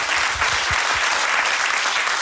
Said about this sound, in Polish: Wielkie brawa. Brawo!